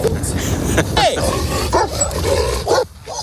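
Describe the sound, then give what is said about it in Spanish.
Several dogs bark and yip as they chase a moving vehicle on the road. A few sharp, high barks and whining yelps come in bursts over a steady low background noise. “Perros que le siguen, perros que le ladran, que lo escoltan o que casi acaban bajo las ruedas.”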